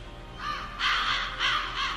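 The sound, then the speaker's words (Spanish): Crows cawing: a few loud, harsh caws in uneven bursts, with no talk. “Los cuervos no son carroñeros como todos creen.”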